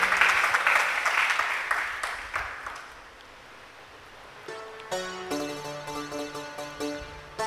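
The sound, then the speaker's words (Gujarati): Audience applause for a kirtan singer during a Sundarkand katha. Dense clapping is loud at first and fades over about three seconds, then sustained musical tones enter. “આ કીર્તન ભગતને તાળીઓ જ બજાવો”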